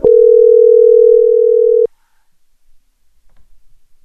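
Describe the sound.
Steady, single-pitch telephone tone sounding loudly for about two seconds before cutting off abruptly, followed by near silence with a few faint soft clicks.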